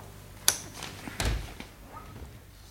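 A safe being opened in a radio drama: a few sharp clunks and heavier thuds spaced irregularly, the first one crisp and bright, all fairly quiet against a still background.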